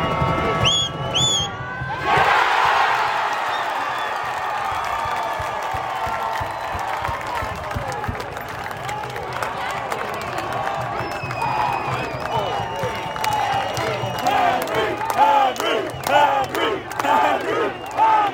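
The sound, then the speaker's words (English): Forge FC supporters in the stands cheer their goalkeeper's save. After a few scattered sounds, a sudden loud roar bursts out and holds as a sustained cheer. Toward the end it breaks into rhythmic, chanted shouts. “Last night, I was sitting in the stands and was able to catch the response to Henry's second stop. Here's what that sounded like.”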